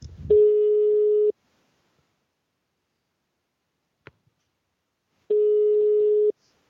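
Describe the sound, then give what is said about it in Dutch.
Telephone ringback tone heard while placing a live call: two steady, mid-pitched buzzing tones of about one second each, separated by a long silence broken by one brief click. “live in de podcast bellen wij jou”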